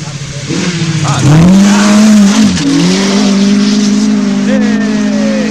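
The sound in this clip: A race car engine roars loudly and continuously, its rear end repeatedly sliding out of line with the front wheels; the engine's pitch dips briefly, then climbs and holds as a strong, steady whine.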